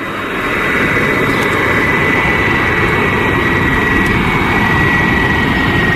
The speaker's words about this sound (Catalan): Efectivament, un avió aterrant a l'aeroport del Prat, i aquest és el so que capten els spotters, que són aquells aficionats que es dediquen doncs, a observar i a registrar els vols al llarg del dia.